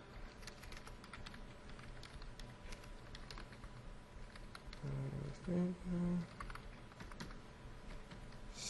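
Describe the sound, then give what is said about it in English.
Quiet typing of login credentials on a computer keyboard: many rapid, light keystrokes in an uneven rhythm, with a brief denser burst of key clicks about halfway through. “And if I type my credentials”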